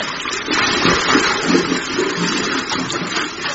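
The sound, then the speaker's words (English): A child swimming across a swimming pool at a health club makes steady, continuous splashing and churning water, fairly loud and without voices. “Watch me swim to the other side, Grandma.”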